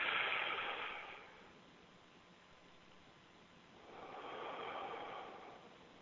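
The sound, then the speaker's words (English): A deep breath is drawn in during a guided breathing exercise, a soft airy rush that fades. A second long breath swells a few seconds later. “I breathe in the breath of God. That's it. I breathe in the breath of God.”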